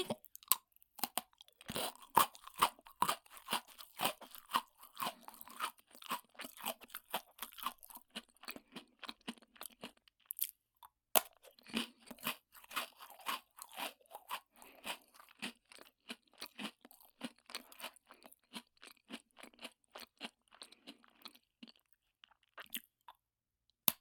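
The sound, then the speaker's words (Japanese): Crunchy snack sticks, four pieces taken at once, are bitten and chewed in a long run of many sharp, dry crunches with a steady rhythm, faint overall, one brief pause near the middle and no talk. “禁断の四本一気食い。”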